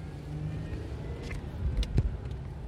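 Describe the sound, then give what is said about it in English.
A truck engine runs with a steady low rumble at a moderate level, swelling briefly near the end with a few louder thumps before settling again. “truck's running, and we are gonna be going a few places, doing a few things.”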